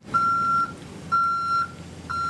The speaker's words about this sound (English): carefully backs a box truck into a bay